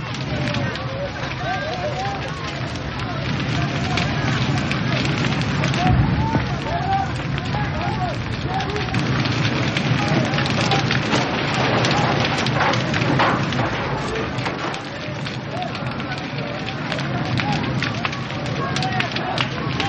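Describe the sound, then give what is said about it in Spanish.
A large fire burning with growing flames while people try to douse it with buckets of water, a continuous dense crackling and roaring that holds steady and loud throughout. “Los nativos se acercan en tropel y algunos intentan apagar el fuego con cubos de agua. Los nativos retroceden ante el incremento de las llamas.”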